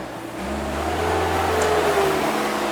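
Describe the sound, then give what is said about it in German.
A front loader's engine drives past around a street corner, a steady low rumble with a humming mechanical tone that grows slightly louder and holds. “Die hätte wahrscheinlich auch eine Pause gemacht, wenn hier der Vorderlader gleich ums Eck fährt und uns die Sendung verhaut. Nächstes Mal beantragen wir die Sperrung der Straße hier.”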